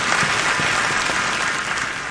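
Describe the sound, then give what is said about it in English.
Steady, dense applause from an audience at a Bible sermon, many hands clapping together at an even, loud level for the whole stretch with no voices on top. “You can clap. Come on.”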